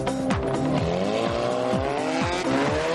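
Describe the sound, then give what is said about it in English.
A race car drives hard on a track through a chicane. Its loud engine climbs in pitch again and again, each climb cut by a sharp drop as the gears change, with a continuous roar throughout. “Well, that is very, very convincingly race car-like.”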